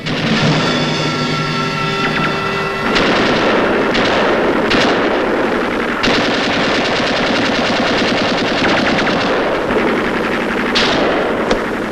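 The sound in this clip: Machine-gun fire in a war film battle at a bridge: loud, rapid bursts of automatic shots rattle almost without a break from start to finish, with sharp cracks standing out in the dense barrage.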